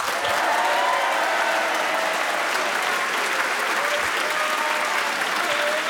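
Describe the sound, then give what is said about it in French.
A large studio audience at a radio show applauds two young guests, a full, even round of many clapping hands that holds steady for about six seconds. “De beaux encouragements de notre public nombreux.”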